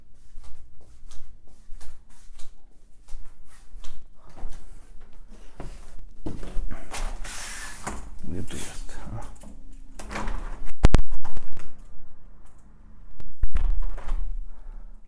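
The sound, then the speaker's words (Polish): Footsteps walking over to a window, which is then opened. A run of soft steps and shuffles leads to louder handle clicks and thuds of the frame being pulled open, with voices in the background. “Teraz idę otworzyć okno.”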